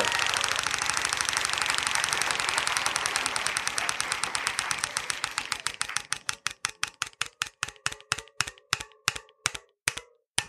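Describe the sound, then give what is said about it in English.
A game show prize wheel spins and clicks. At first the clicks come in a rapid, dense rattle, then they space out and slow steadily until the last few sharp ticks stop. “please go ahead and spin that wheel.”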